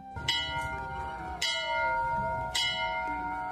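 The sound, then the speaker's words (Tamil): A temple bell rings three times at an even pace. Each strike begins with a bright, clear attack and then fades into a long, humming resonance that carries through to the next strike. “அது கோயில் மணி கூட அடிக்குது, நல்ல சகுனம் தான்.”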